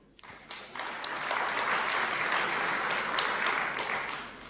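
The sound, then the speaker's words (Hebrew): Audience applause starts suddenly after a brief quiet moment and continues as a steady, dense wash of clapping that stays fairly loud to the end before easing slightly. “אפשר למחוא כפיים בהחלט”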